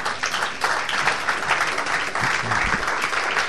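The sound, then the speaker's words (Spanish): A church audience applauds in dense, steady clapping that carries evenly from start to finish with no clear pauses. “¿Puede darle un aplauso al Cristo que vive?”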